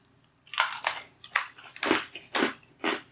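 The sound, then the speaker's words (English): Chewing on a crescent moon shaped marshmallow: six moist, crackly bites come in quick succession, each a short burst with small pauses between, and no talk. “I'm eating that crescent moon I just opened. It's great.”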